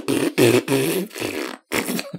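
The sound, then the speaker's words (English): A voice imitates farting with a quick string of several loud, low buzzing raspberry blasts, each a fraction of a second long, with one short gap before the last. “And just like farted a bunch on the toilet.”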